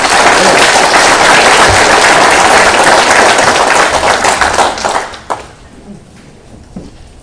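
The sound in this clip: Audience applause welcoming a speaker, a loud, dense burst of clapping that holds steady for about five seconds before quickly dying away to near quiet.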